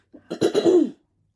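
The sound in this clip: One person clears their throat with a short, rough, low cough, heard alone and followed by silence.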